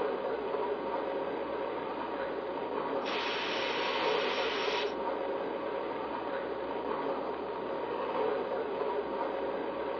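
Steady rumble and hiss of a train, extra 4024 West, departing Portland station on track 1. It is a broad, even wash of rail noise that stays constant throughout, with no voices.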